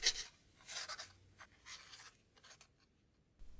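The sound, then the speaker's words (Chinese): Scratching of a quill pen writing on paper: faint, dry, hissing strokes in a few separate bursts with short pauses between them. “因为如果德斯里家的谁起来上厕所时听见了他羽毛笔的沙沙声”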